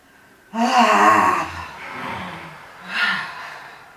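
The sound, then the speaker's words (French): Deep breathing: a loud, airy intake of breath followed by a longer, softer exhale, then another shorter breath near the end. “J'inspire. J'expire toute cette peur.”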